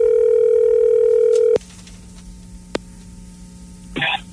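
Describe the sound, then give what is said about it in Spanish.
A telephone line tone sounds during an outgoing call waiting for an answer: a loud, steady tone holds for about a second and a half, then cuts off to a low hum, with one click and a short noisy burst near the end. “Estamos llamando a ver si nos contesta.”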